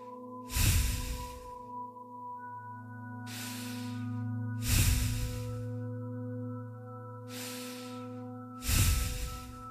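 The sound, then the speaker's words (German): Slow, deep breaths in and out through the nose at the end of a relaxation exercise. There are five unhurried, airy breath sounds, evenly spaced over a soft, steady musical drone. “Nimm nochmal drei tiefe Atemzüge durch die Nase ein, durch die Nase aus.”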